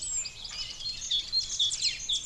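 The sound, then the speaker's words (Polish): A chorus of many bird species singing in an arboretum: continuous overlapping high chirps, whistles and trills with no pauses, moderately loud, with no voices. “Śpiewa ponad 80 gatunków ptaków.”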